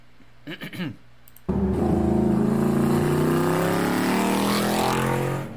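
Car engine revving at high RPM: after a few brief, quieter sounds, a loud sustained roar bursts in and holds for several seconds, its pitch climbing gradually.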